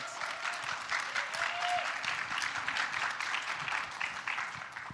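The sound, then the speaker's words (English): Audience applause greeting a speaker called to the stage, a lively burst of many hands clapping that stays fairly steady for about five seconds before easing off at the end. “Y'all welcome Dylan. Give him a hand.”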